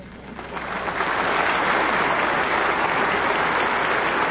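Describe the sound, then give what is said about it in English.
A church audience applauds during a preacher's sermon. The clapping swells over the first second into sustained, dense applause that holds steady to the end. “He knows exactly where he's got to stop to get the applause.”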